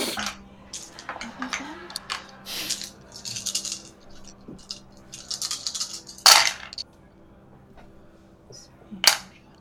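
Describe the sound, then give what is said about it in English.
Dice rolled during a tabletop role-playing game: a few light rattling clatters, then two sharp clacks as dice strike the table, all fairly faint. “Yeah, go ahead and roll again. Oh, all your dice that weren't sixes.”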